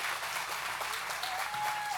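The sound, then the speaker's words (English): An audience gives guests a loud welcome with sustained applause: dense, steady clapping that stays even and fairly loud for the full two seconds. “Keystone, can we just give a loud, great welcome for all of our guests here today?”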